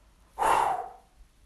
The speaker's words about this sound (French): Expire rapide vers le bas.